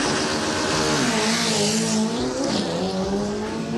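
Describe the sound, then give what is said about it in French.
Dragster race cars launching at a drag race, a loud, continuous roaring engine drone with strong harmonic tones that shift slightly in pitch, no talk. “Bon voilà, c'est ça les courses de dragster, ça fait beaucoup même de bruit.”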